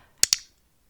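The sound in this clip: Two sharp clicks from an iClick clicker, pressed in quick succession, crisp and short with near silence after.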